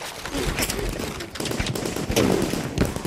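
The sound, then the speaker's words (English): Gunfire from a sandbag barricade at the far end of a street: many sharp, loud shots in rapid bursts, like machine-gun fire, cracking over a constant rumble. “Taking shelter behind a bin store, he's targeted with gunfire from a sandbag barricade at the far end of the street.”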